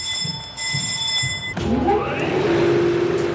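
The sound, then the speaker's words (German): An over-70-year-old wool-producing machine rumbles as its gears and rollers engage. A steady high whine gives way to a louder rumble with a rising tone as the machinery starts moving. “Es rumpelt, es klackert, Zahnräder greifen ineinander. Langsam setzt sich Walze für Walze in Bewegung.”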